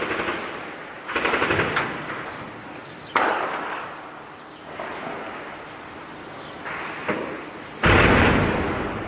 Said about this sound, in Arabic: حمص القديمة، الله أكبر، قصف الهون المدفعية،